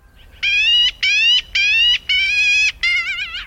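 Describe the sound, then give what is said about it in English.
A black-billed magpie in open country with bare March trees gives five loud, raspy, nasal calls in a steady series. Each call lasts about half a second with short gaps between them, and the last call wavers. “The magpie's raspy call is bold as brass.”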